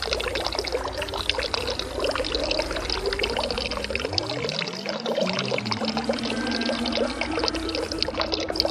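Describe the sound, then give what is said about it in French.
Water pours and rushes in a dense, continuous wash throughout, steady in loudness, with a low tone sweeping through the middle of the stretch. “De l'eau, toujours de l'eau qui coule sur les ponts.”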